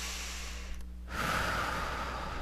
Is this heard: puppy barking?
no

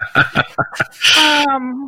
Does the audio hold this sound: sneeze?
yes

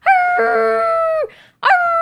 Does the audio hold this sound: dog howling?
yes

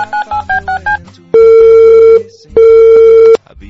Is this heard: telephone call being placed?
yes

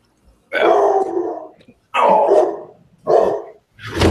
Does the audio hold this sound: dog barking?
yes

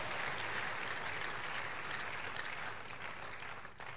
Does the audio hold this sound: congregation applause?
yes

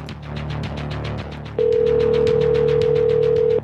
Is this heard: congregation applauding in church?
no

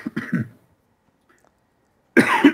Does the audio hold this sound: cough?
yes

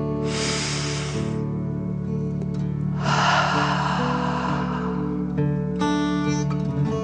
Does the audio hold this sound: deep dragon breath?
yes

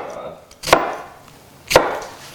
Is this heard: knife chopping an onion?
yes

